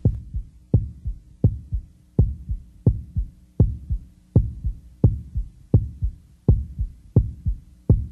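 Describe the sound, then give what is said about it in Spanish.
A heartbeat heard through a stethoscope: twelve steady, low, muffled double thumps in a regular lub-dub rhythm, each beat followed closely by a softer second knock, with no voices. “permítenos hacerte una auscultación con el estetoscopio.”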